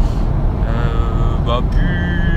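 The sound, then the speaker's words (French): Steady low road rumble and engine drone from inside a car during a work commute, continuous and fairly loud throughout with a faint tonal whine on top. “je profite de mes trajets en voiture, mes trajets de boulot pour enregistrer”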